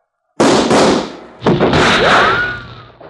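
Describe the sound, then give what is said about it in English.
Gunshots from a gun being emptied: a few loud, sharp blasts, each trailing into a long, rumbling decay. “And that makes six. All right, Cleaver, your gun's empty, I reckon”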